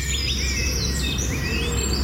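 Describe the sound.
Birds chirping outdoors: many bright, quick tweets and whistled notes repeat through the whole clip over a steady low rumble. No one speaks.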